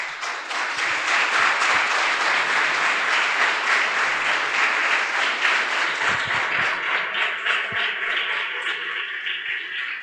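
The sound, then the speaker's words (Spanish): Sustained applause from a church audience fills the whole stretch, a dense, steady wash of many hands clapping with no talk over it. “Yo quiero invitarlos a que podamos darle un aplauso a todos aquellos que han ido a Santiago del Estero. Vamos a dar un fuerte aplauso.”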